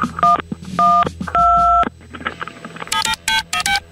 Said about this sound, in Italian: Avete sentito i tasti del suo telefono? E io allora gli metto dei suoni diversi per confonderla.